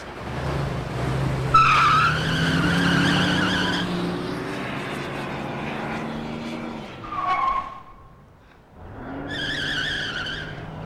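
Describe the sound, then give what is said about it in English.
A car roars away with a loud engine growl and squealing tires. The engine revs up, eases into a brief lull, then surges again with more tire squeal. No one speaks. “He takes her in his arms as Marty roars away.”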